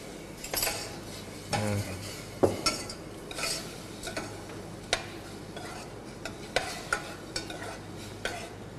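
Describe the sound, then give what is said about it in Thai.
A utensil stirs 100 grams of pork seasoned with a teaspoon of fish sauce in a pan without oil, giving many irregular scrapes and clinks against the metal over a faint, steady sizzle. “ตอนนี้เนี่ยเราก็ลวนหมูไปเรื่อยๆการลวนแตกต่างกับการผัดการทอดการเจียวอย่างไรการลวนเนี่ยจะใช้ไม่ใช้น้ำมันนะฮะ”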